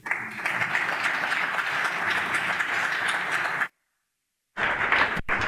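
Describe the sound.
Dense, even applause from an audience welcoming a speaker to the podium at St. Michael's. The steady clapping cuts off abruptly into silence, then resumes just as loud until the end.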